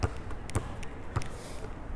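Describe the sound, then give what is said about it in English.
Rented basketball being dribbled in practice on a court, a few soft, low thuds at uneven intervals, faint against steady background noise. “there's a basketball in there that you can, like, rent if you need one. So I'm practicing dribbling.”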